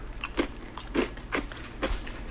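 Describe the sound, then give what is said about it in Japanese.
Crisp bites and crunches come from someone eating a very thin Japanese wagashi sweet from Kumamoto. Four distinct crunches fall at a fairly even rhythm over a low, constant hum, with no talking. “すいませんね、食べながらで”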